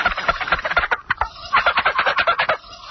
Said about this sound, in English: I have a live turkey in the studio with me today. You know, that thing is just as good as those turkey callers.